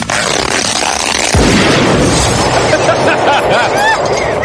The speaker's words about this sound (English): Exploding Barbie's filled with plastic explosives, so when you pull her hair...